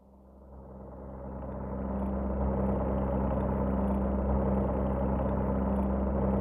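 Airplane engine running on an ocean flight, a steady low droning roar that swells over the first two seconds and then holds level and unbroken, with no voices over it.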